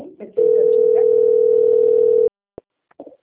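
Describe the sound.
A telephone dial tone heard while placing a call: a loud, steady, single-pitched tone holds for about two seconds, then cuts off. A couple of brief clicks follow.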